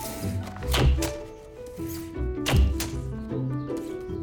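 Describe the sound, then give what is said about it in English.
A staple gun fixing a mural to a wall fires two sharp, heavy thunks about two seconds apart, with a few lighter clicks between them, over a soft steady tonal background. “He gets his gun stapler.”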